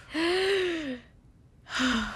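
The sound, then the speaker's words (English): A group takes one deep breath together, a long, breathy, faintly voiced inhale followed after a brief pause by a shorter breath out. “let's all take one deep breath together”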